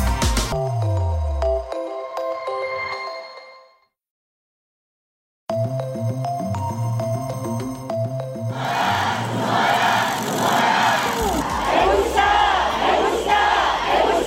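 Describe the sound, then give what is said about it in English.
A crowd of 50,000 teachers protests in Seoul, South Korea, with rhythmic massed chanting that swells into loud, sustained roaring and shouting from many voices, dense and unbroken to the end. “That is the sound of 50,000 teachers protesting in the South Korean capital, Seoul, this week.”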